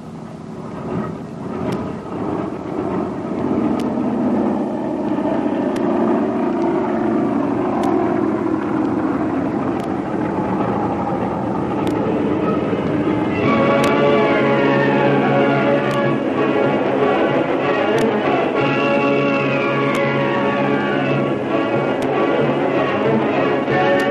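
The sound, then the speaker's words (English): A big passenger airliner takes off from a concrete runway: a loud, sustained engine roar that swells, with whining tones climbing in pitch through the second half. “Concrete runway, up into the air, the big passenger airliner takes off on the first leg of its eventful journey southwest to Mexico.”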